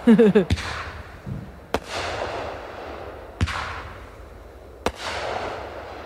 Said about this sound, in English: Fireworks.